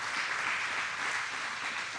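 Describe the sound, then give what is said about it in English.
An audience claps hands in praise during a church service. The applause is dense and continuous, with no gaps, at a steady, fairly soft level throughout. “I want give the Lord a hand clap of praise.”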